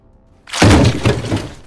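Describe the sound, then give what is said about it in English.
Loud crash of an out-of-control vehicle smashing into a man and running over him: a sudden heavy impact that turns into about a second of crunching, breaking noise. “The bulk of the vehicle smashed into Nishachar's upper body, and as he landed sideways, it ran over him and crushed his body.”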